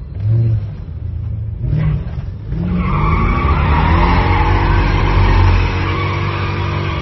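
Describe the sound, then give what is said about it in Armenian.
Screeching tyres and revving engines of cars speeding through city streets at night in Yerevan: a few short engine roars, then a long, loud sustained tyre squeal over the roaring motor. “Գիշերային Երևանը հաճախ ցնցվում է նաև մեծ արագությամբ սլացող մեքենաների ձայնից, կամ ինչպես բնակիչներն են նկարագրում, ճռռիկներից։”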